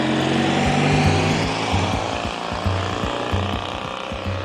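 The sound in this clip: Engine of a Citroën 2CV car driving round bends on a winding road on Réunion in the 1960s: a steady, buzzing low drone with a few ticking knocks and slight shifts in tone.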